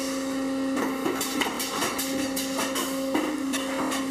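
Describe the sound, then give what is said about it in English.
Machinery whirs and hums steadily in a bottle-making factory, with a constant tone running underneath and many quick clinking, rattling clatters breaking through the drone. “so it's just the, the bottle sounds. Yeah. This this is the stuff that they recorded at the bottle factory.”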